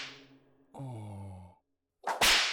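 A whip lash strikes skin in a loud, sharp burst near the end, after a breathy exhale and a drawn-out, moan-like voiced sigh.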